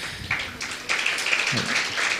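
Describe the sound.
Audience clapping during a talk in which verses are recited and listeners are invited to clap along, a moderate patter of hands that swells after a soft start and continues steadily to the end.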